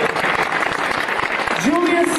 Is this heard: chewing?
no